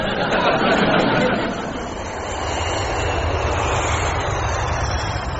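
An airplane cabin in flight hums with a steady broad engine drone as the plane nears Gdansk, a dense even roar that dips slightly partway through and then holds level.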